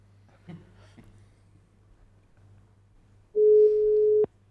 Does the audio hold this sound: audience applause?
no

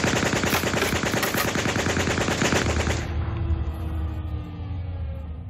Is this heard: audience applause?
no

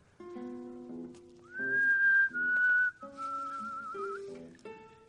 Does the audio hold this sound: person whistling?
yes

